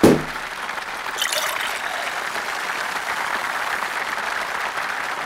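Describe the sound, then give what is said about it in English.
A champagne bottle is opened with a sharp pop at the very start. A steady fizzing hiss follows as the champagne is poured, with a brief brighter splash about a second in. “Congratulate them, congratulate yourself, and open the champagne.”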